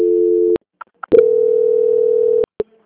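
Telephone tones sound while a bank customer-service call is transferred: a steady mid-pitched tone, then a pause with a few clicks, then a longer steady tone. Sharp clicks close it out.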